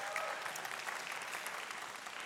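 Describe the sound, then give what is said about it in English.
Audience applause fills the whole stretch as steady, dense clapping from many hands, fairly faint and even in level without clear breaks. “Yeah, we should clap for that.”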